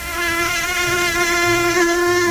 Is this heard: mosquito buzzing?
yes